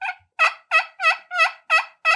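A hand-operated turkey call imitating a turkey: seven evenly spaced clucking yelps, the first one shorter and softer, the rest loud and raspy at a steady rhythm, with silence between them.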